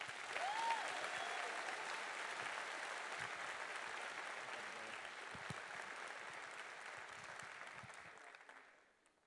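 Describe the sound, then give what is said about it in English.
Sustained audience applause welcomes a pastor onto the stage at a South Texas church gathering. The clapping is steady and dense for most of its length, then fades out at the end, with no voices heard. “Please give it up for my dear friend. Let's give a warm South Texas welcome to Pastor Marcus Meekum.”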